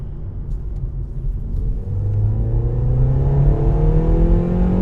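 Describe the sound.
A car accelerates on a motorway, its steady engine drone climbing gradually in pitch over a loud, constant road rumble. No voices are heard.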